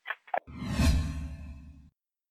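A radio show's transition sting: two brief blips, then a swelling whoosh over a steady low humming tone that cuts off abruptly into silence.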